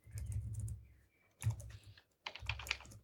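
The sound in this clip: Computer keyboard keys clatter as someone types a search, in three quick bursts of keystrokes separated by short pauses, fairly faint and with no voices.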